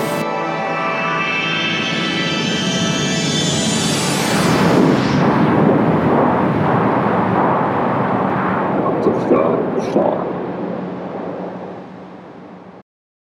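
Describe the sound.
Artillery firing sound effect after a countdown: a whistling sweep climbs in pitch over several seconds into a loud, sustained roaring blast that rumbles on, then fades and cuts off abruptly.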